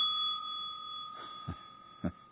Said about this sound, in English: I ring this warning bell.